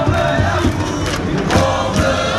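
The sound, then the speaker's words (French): Crowd noise from fans gathered outside a town hall, waiting for Metz Handball's European trophy celebration: a loud, dense, continuous roar of many voices that stays steady throughout. “Et dehors, le public s'impatiente.”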